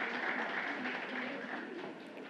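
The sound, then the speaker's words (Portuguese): Audience applause at a ceremony honouring a farmer in Araguari, dense and steady clapping held at an even level with voices mixed in, easing slightly toward the end. “Convidamos o agricultor Jaime Sebastião Bataglini e a senhora, uma salva de palmas, esse homem que fez e faz muito por Araguari.”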